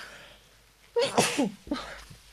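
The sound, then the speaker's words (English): Two sneezes from a person, each a sharp, loud burst; the second is shorter than the first, with quiet breathing before them. “Two sneezes from me.”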